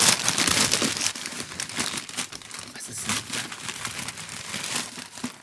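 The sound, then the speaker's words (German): Gift wrapping paper crinkles and rustles as it is torn open, a dense, steady stream of crackling paper noise with small swells in loudness and no pause from start to end. “schön eingepackt. Ja, reiß auf, komm. Mach jetzt nicht meine Oma. Robb das Ding auf.”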